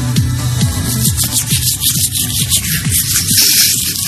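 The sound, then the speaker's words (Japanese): Toothbrush scrubbing teeth with toothpaste, worked awkwardly with the left hand: quick, rhythmic, scratchy bristle strokes repeating close and fairly loud over a low background rumble. “歯磨き粉もやんの。僕は右手で磨くからね。じゃあ左手で。”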